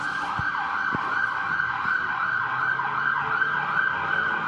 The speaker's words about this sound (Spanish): Eso no fueron efectos de sonidos, en verdad fue una ambulancia.